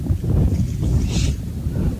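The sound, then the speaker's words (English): Wind buffets a microphone at an outdoor high school football game, making a steady, loud low rumble with a short hissy gust near the middle and no voices. “That is the wind that's blowing, Justin. That's why our papers go flying. That's what you hear right now into the microphone.”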